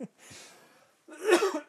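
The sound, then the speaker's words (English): People coughing, heard as a few short, rough bursts separated by softer breathy sound, the last burst the loudest. “We're all coughing.”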